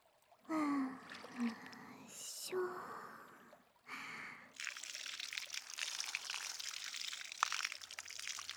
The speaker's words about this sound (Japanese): もう一回流しますよ。たっぷりのお湯でしっかり流さないとですから。